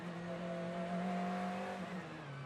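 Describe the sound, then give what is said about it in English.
A McLaren 720S GT3 race car, number 70, revs its engine during qualifying on the Long Beach street circuit. The engine note is a steady, strong droning tone that swells slightly, then eases toward the end. “Heard the revs rise there on that number 70 at McLaren. The 720 GT3.”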